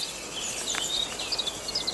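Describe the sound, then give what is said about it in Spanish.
A cricket chirping: many rapid, high-pitched chirps in uneven bursts over a constant hissing background. “¡Un grillo! Vamos a ir a cazarlo, es un grillo príncipe. ¿Cómo lo sabes? Por el canto, canta mejor que el grillo rey.”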